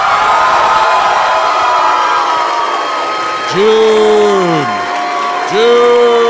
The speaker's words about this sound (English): Oh, somebody just went, oh! Like, oh, they're all three here.